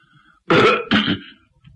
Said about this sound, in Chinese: 清了清嗓子